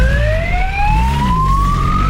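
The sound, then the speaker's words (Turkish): Police car siren during a chase after a fleeing teenage motorcycle rider in city traffic: a loud, piercing wail sweeping steadily upward in pitch, with low engine and traffic rumble underneath and no talk. “Polis ekipleri peşine düştü, siren seslerine rağmen kaçışından vazgeçmedi.”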